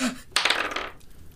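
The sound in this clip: Dice rolled during a game: a sudden clatter followed by a short, bright rattle as the dice tumble and settle, fading out in about a second.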